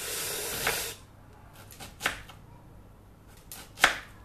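A knife chopping an onion: a hissy scrape at the start, then a few sharp, separate cuts spaced out in a faint, quiet stretch.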